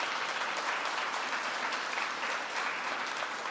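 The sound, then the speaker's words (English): A church audience claps for a man who led the week's activities. Many hands keep up an even, continuous wash of applause from start to finish. “And he likes for us to clap for him. So there you go.”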